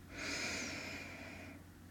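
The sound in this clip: A slow, deep breath in is taken during a guided relaxation breathing exercise. It is a faint, smooth airy rush that swells gently and fades over about a second and a half.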